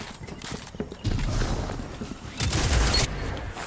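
Fusion rifle fire in a shooter video game, with two loud bursts of rapid crackling shots separated by a brief lull and quieter mechanical noise before the first burst.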